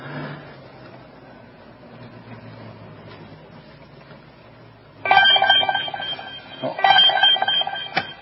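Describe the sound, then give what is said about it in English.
Electronic alarm from a police licence plate reader computer flagging a hot-list vehicle: after a quiet stretch of low hum, two loud bursts of repeated, bright tonal beeping sound one after the other. “vehicles that are in the hot list, then we get an audible alarm here on the computer screen.”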